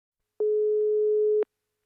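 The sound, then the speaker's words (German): A telephone tone sounds as a call is dialed: one steady, mid-pitched beep lasting about a second, clean and alone, with silence before and after. “Und ich sage, ich wähle mal.”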